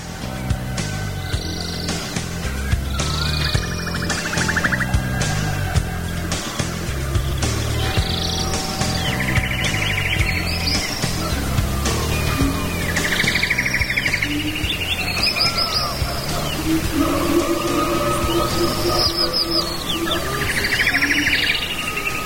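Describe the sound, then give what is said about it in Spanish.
Jungle birds chirp and trill in repeated bright bursts over a steady, continuous rush of a waterfall in the background, the calls recurring many times throughout at an even, fairly loud level. “Que estamos en la selva ahí, mira, con los pajaritos. Es una catarata de fondo.”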